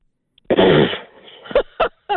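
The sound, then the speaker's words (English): A bemused snort, a blown raspberry: one loud, rough buzzing blast, then three short, sharp bursts after a brief pause. “That was a funny sound. You know. Who finishes the project? That was what I'd call a bemused snort. Yeah. Yeah, the old raspberry.”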